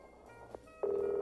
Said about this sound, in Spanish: Marca ahora de nuevo, a ver. Ahora sí, mira. Aparece. Ahí está llamando.